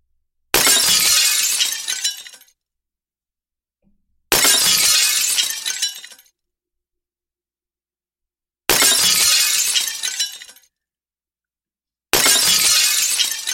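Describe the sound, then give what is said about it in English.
Glass bottles being dumped and shattering: four loud crashing bursts of breaking glass, each lasting about two seconds and separated by silence. “So this dude gets the bottle dumping of the year, bro. Sorry about the noise, man. If you're not used to bottles.”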